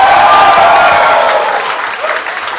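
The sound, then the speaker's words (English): A crowd bursts into cheering and applause for a departing contestant, loud clapping mixed with a high whoop at the start, tapering slightly toward the end. “Make some noise for Adam!”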